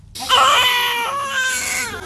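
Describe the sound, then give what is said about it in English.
A newborn baby cries in a hospital in Nablus, one loud, sustained wailing cry with a strained, high pitch that begins after a brief moment of silence and holds steady to the end, with no other voices. “In a Nablus hospital, the cries of a newborn as new life emerges from tragedy.”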